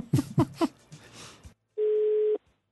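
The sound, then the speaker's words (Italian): A telephone rings out while a call is being placed, one steady, even electronic tone lasting about half a second, following a stretch of brief muffled sounds. “sta squillando. Aspetta, ci proviamo.”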